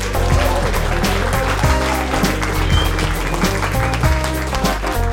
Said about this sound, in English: Please welcome Mikey Bayliss.